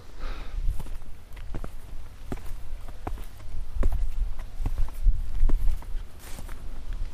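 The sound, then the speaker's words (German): Footsteps of people walking up onto a dike outdoors: many soft, fairly loud treads in a steady walking rhythm over a low rumbling background. “Oh, wir laufen jetzt auf den Deich hoch.”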